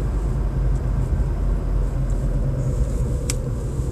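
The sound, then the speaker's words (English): A car being driven produces a steady, loud low road rumble with a constant engine drone. It continues unbroken for the whole clip, with no voices. “I have to do a bit of driving right here.”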